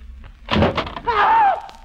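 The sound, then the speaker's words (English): A closet door is pulled open with a few dull wooden thuds, followed by a drawn-out creaking hinge squeal that wavers in pitch before fading. “you cover the door while I open it.”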